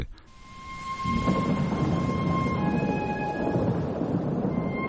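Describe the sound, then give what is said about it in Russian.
Thunder rolls through a rainstorm as a deep, sustained rumble over a steady wash of rain. It swells in after about a second and stays loud to the end. “гроза, и дождь — всеобщее несчастье в микрокосмосе.”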